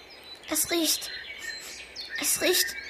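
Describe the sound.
Migratory birds chirping in spring, heard as two short bursts of bright, high-pitched chirps separated by a quieter stretch of faint background.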